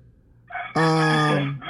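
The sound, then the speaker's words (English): A rooster crows in one long, loud cock-a-doodle-doo, a strained, harmonic call that holds steady for nearly a second before cutting off. “Our rooster chicken. Rooster.”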